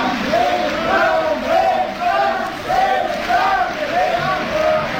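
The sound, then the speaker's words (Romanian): A circus audience chants in unison, calling out for the performer Fram. The rhythmic chant repeats in steady, evenly spaced phrases of loud massed voices throughout. “Auzi, maestru? Așa îl cheamă publicul în fiecare zi.”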